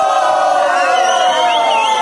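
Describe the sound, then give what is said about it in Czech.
An audience of many voices shouting "fuj" together in a drawn-out, sustained chorus of booing, loud and continuous throughout. “Tak například, když se vám něco nebude líbit, všichni zvoláte sborem fuj, prosím, nacvičme si.”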